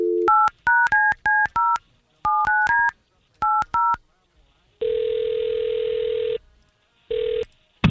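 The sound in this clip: Telephone keypad tones dial a call as a rapid series of short, bright dual-tone beeps in three quick groups, then a long steady ring tone sounds and a second shorter ring follows.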